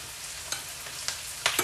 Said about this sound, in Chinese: 然后淀粉给它搅拌一下，让它浓稠一点。